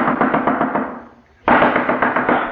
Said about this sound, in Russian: Дверь. Ну что же делать, генерал, наверное, сейчас дверь выломает, тогда мне не быть живу.